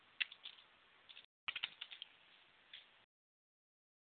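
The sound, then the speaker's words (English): Fast typing on a computer keyboard: two quick runs of light, clattering keystrokes split by a brief pause, then silence. The clicks stay fairly faint throughout. “If I could type, I would be a lot faster.”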